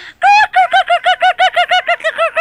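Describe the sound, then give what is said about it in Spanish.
A person imitates hens clucking, as if laughing like chickens: one long nasal squawk followed by a rapid, even train of many short, bright, clucking pulses, loud and alone. “Eso, reírnos como las gallinas. Hazlo otra vez.”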